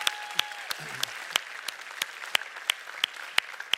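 Church audience applause for the First Impressions welcoming team, with loud claps landing in an even, steady beat over a softer bed of scattered clapping. A brief faint tone is heard near the start.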